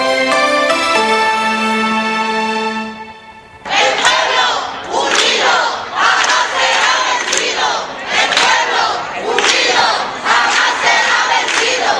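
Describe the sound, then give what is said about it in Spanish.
Crowd chanting and shouting at a protest by tenants of 91 social rental flats in Écija, Spain, which were awarded to an investment fund at auction. Loud rhythmic bursts of voices follow a few seconds of sustained musical tones. “Es el sonido de la protesta de los vecinos de las 91 viviendas de alquiler social de Écija que han sido adjudicadas a un fondo de inversión en subasta.”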